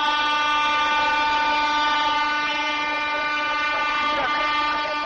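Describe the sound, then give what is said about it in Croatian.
Old Ćiro narrow-gauge steam train arriving from Šargan mountain on the Mokra Gora–Višegrad line: a sustained, harmonically rich whistle tone holds steadily over a continuous rumble of rolling rail noise. “Evo stiže gvozdena mašina sa Šargana, Šarganski planina.”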